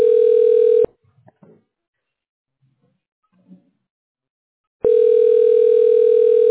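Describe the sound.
A telephone call's ringback tone sounds while waiting for an answer: two long, steady, loud low-pitched tones separated by about four seconds of near silence with a few faint rustles.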